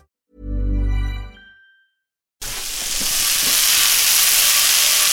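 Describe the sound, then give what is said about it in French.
Butter melts and sizzles in a frying pan. A steady, loud hiss starts abruptly after a brief low tone and a moment of silence, then swells slightly and holds constant. “C'est le bruit du beurre qui fond dans la poêle.”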